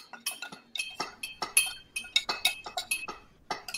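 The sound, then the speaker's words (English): A spoon clinks rapidly against a glass while honey is stirred into a cocktail. The bright, metallic clinks come in a quick, fairly steady rhythm, with no other sound. “Give that a little stir. Get that honey all dissolved.”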